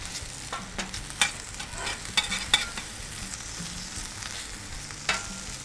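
Bacon fries in a pan with a quiet, steady sizzle broken by scattered crackles and a few sharper pops.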